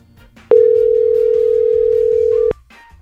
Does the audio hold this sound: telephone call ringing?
yes